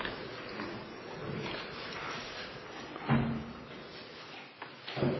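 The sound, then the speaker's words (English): A door being closed at the back of a meeting room makes a few dull knocks and thumps over a low, steady room noise. The final thump is the firmest. “would you mind closing the door back there behind you?”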